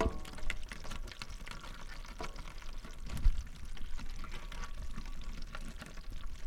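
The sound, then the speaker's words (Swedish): Crayfish scrabbling about in a kitchen sink, giving a steady, faint wash of dry crackling and scratching with scattered small clicks and no voices. “Och nu ska vi se om ni kanske här, kära lyssnare, kan höra det här ljudet, karaktäristiska ljudet av de här kräfterna som går omkring i våran diskho här.”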